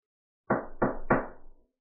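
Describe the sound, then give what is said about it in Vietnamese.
Three firm knocks on a door, evenly spaced, each with a short ringing tail, heard alone with nothing else around them. “Tiếng đập cửa vang lên.”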